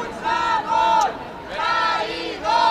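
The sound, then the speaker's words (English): Demonstrators in the streets of Barcelona shout and chant together in loud, rhythmic bursts, the massed voices rising and dropping in a repeated pattern. “Demonstrators in the streets of the Catalan capital, Barcelona, have alternated all day between cheering Carles Puigdemont and calling him a traitor.”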